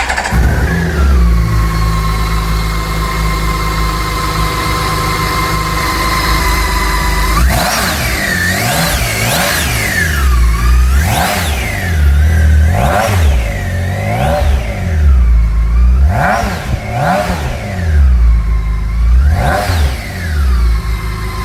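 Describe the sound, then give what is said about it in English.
A K1600 six-cylinder motorcycle engine idles smoothly and steadily, then is revved hard in many quick blips, each pitch swell rising and falling before settling back to idle. The engine is loud throughout with no voices. “How smooth is that? How many cylinders do you need for such an abundance of power? Does it matter? Ah, the joy of six and the thrill of the K1600.”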